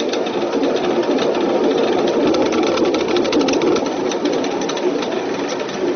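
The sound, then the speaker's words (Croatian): A renovated stream watermill belonging to the Vujić family runs steadily, giving a dense, continuous churning rumble laced with fine, rapid rhythmic clatter throughout, with no voices. “Vodenica potočara Vujića je renovirana, radi, a posao je nastavio Cvijetin sin Nikola.”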